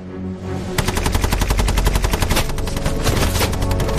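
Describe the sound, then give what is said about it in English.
A Bren machine gun fires from an upper window, sweeping a hedge line that hides German soldiers: after a brief low rumble, loud automatic fire runs for about three seconds in a rapid, steady rhythm. “He places his last Bren gun in an upper window overlooking the position. Lonsdale signals the gunner to sweep the hedge line which conceals the German soldiers.”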